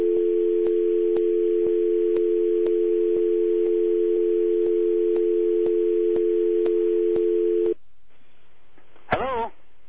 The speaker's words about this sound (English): We had somebody hang up on us there.